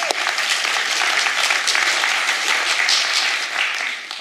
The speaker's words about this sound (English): Give Chris a hand, would you?